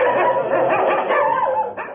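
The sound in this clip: Dogs barking at an animal shelter: a loud, dense chorus of overlapping barks and yips that runs continuously through the whole clip, with no talk.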